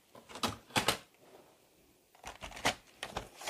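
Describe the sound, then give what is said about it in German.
Paper strips being cut into three-centimetre pieces for a handmade winter greeting card: a few crisp, dry snips in two short clusters, separated by a quiet pause. “Auch da schneide ich jetzt drei Zentimeter Stücke ab.”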